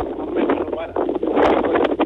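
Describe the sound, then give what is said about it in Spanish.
Strong wind in Vallenar roars and buffets an outdoor phone microphone, giving a steady, muffled, narrow-band rushing that swells and dips without a break. “¿Eso que se escucha es el viento? Viento muy fuerte. Ya como una hora de viento muy fuerte, Ya. Mucho viento.”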